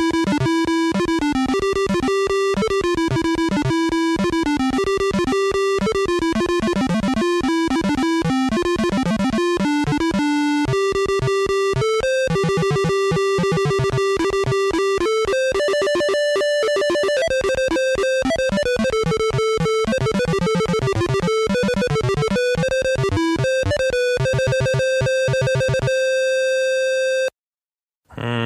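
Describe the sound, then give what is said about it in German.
Bard's Tale 2 game music beeps out of a PC speaker as a bright, buzzy square-wave tune of rapid on-off tones with a bass part. The notes are steady in loudness and the piece runs alone before cutting off abruptly near the end. “Das heißt, das spielte das aus dem PC-Speaker. Und der PC-Speaker, der kennt ja nun keine Dynamik, also keine Laut-Leise-Wechselung, keine Tonspuren. Der kann immer nur so Ein-Aus-Töne spielen. Deswegen wird er auch Piepser genannt.”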